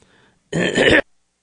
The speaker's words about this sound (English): excuse me for that, and I missed my cough button